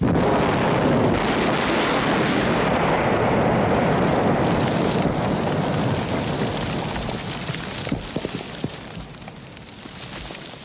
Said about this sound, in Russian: За спиной поднимаются разрывы.